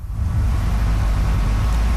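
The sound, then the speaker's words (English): Low, steady rumble of a vehicle engine as the wreck of a 1985 burgundy Firebird is towed onto a Windsor high school's front lawn, a heavy continuous drone with no pauses. “At a Windsor high school, the wreck of a 1985 Burgundy Firebird is towed onto the front lawn.”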